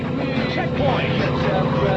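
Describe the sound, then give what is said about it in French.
A new Jeep's engine drones in a racing video game, a steady, whining motor hum that holds without a break for two seconds. “est-ce qu'elle est bien ma Jeep toute neuve que je viens de m'acheter avec mon argent? Ouais, pas mal, elle est déjà plus rapide que la voiture que j'avais tout à l'heure.”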